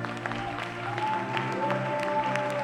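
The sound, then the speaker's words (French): Congregation applauding during a worship service: steady, moderately loud clapping over sustained musical tones, with no talk. “Est-ce que tu peux acclamer le Seigneur pour ta vie?”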